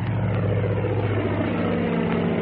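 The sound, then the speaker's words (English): Propeller plane taking off from a runway: a loud, continuous low engine drone with a rough, throbbing hum, steady throughout and without voices. “stepped back from the runway as the plane took off.”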